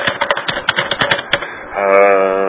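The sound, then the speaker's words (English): Rapid typing on a computer keyboard, many sharp clicking keystrokes in an uneven, quick rhythm that then stop. “So I'll type in Government of Canada.”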